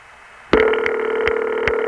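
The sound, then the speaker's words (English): Telephone ringing in the Canada Ring pattern heard in Bell Canada exchanges: after half a second of faint hum, a loud buzzy ring starts abruptly and holds steady, with regular pulsing accents through the tone. “That ring is known as Canada Ring among phone freaks, mostly found in Bell Canada areas”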